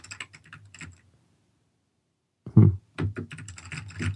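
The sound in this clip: Computer keyboard typing during a search: a few bursts of crisp key clicks, a pause of about a second and a half, then a louder thump followed by rapid, steady clicking.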